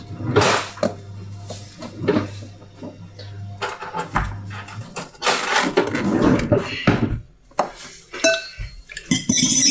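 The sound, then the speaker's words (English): A fork whisks eggs in a mixing bowl. Loud, irregular metallic clinks and scrapes hit the bowl many times in quick bursts, with short pauses between them. “Whisk the eggs with a fork in a mixing bowl.”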